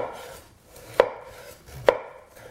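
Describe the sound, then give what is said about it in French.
Two crisp knife chops on a cutting board as artichokes are cut into small sticks for a pizza recipe, sharp, evenly spaced thuds about a second apart over a faint background hiss. “Puis couper l'ananas en rondelles. Et couper les artichauts en petits bâtonnets.”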